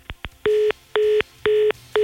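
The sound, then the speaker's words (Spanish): Telephone line tones as a call cuts off: two short clicks, then four evenly spaced steady beeps of equal length and loudness in a regular on-off pattern, with no voices. “Vamos a regresar con Juan Luis, se cortó ahí la llamada”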